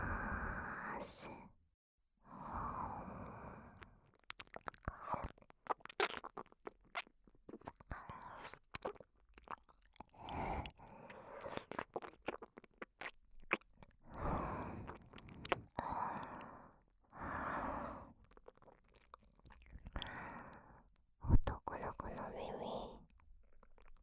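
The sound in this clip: Whispered ASMR ear-eating: close, wet chewing, biting and squishy mouth noises, many small clicks and smacks scattered between soft whispered speech.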